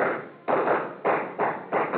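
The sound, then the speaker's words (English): Gunshots fired into a plaster ceiling during a fistfight, heard as five dull, muffled bangs in an irregular rapid series, each with a short rough tail, sounding thin and band-limited. “jammed my trigger finger in over his and pumped till all the shots went to the ceiling”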